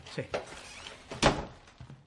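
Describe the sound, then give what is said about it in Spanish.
A door is shut in someone's face in an action thriller film scene, giving a single dull thud partway through. Soft voices and faint movement sounds surround it. “Le cierra la puerta en la cara.”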